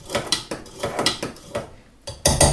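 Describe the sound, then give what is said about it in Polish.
A teaspoon gently works flour and baking powder into cake batter in a bowl, making a steady series of light clinks and scrapes with short gaps, ending in a louder clatter. “Aby uniknąć wywiewania mąki z ciasta, możemy na początek łyżeczką delikatnie mąkę sobie w cieście rozprowadzić.”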